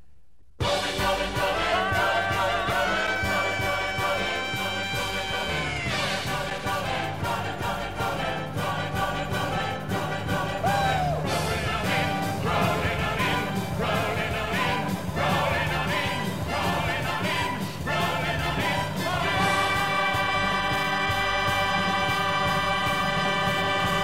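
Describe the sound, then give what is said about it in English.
Bumper music for a radio talk show plays as a steady, full music bed with sustained tones and a driving pulse, holding an even level throughout with no talk over it. “Great bumper music.”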